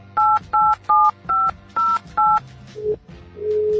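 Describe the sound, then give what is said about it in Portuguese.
Six loud, evenly spaced keypad tones dial a phone call placed through internet calling software, followed by a short lower tone and then a steady held tone. “A Tarsila Garcia, vamos ligar para ela aqui, atenção, ligar através do Skype mesmo para poder gravar.”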